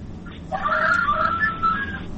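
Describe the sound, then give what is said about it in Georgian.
A rooster crows once: a drawn-out, warbling call of about a second and a half. It is moderately loud over a low background hum. “მამლის ყივილი უკვე გავიგონე”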